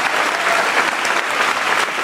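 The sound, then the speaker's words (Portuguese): A church audience applauds at a worship service with loud, dense, sustained clapping that stays at a steady level for about two seconds, with no voices over it. “Você pode aplaudir o Senhor mais alto no seu lugar.”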